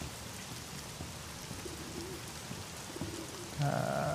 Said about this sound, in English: And we're walking across a, like, outdoor walkway as it rains.